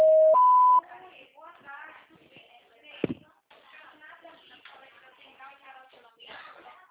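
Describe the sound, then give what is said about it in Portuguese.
A voicemail recording beep sounds as two clear steady tones, the second higher than the first, and then a man starts speaking. “Sua chamada está sendo encaminhada para a caixa de mensagens e estará sujeita a cobranças após o sinal.”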